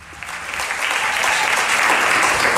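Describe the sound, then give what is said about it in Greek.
Audience applause fills the whole stretch: dense, steady clapping from a crowd that swells slightly early on and then holds at a loud, even level, with no voices over it. “Με αποθεώνει το κοινό, όπως ακούτε.”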